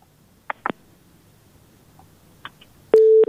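A telephone busy tone after a caller's line disconnected: a few faint clicks, then a loud, steady, even-pitched beep near the end, with no talk.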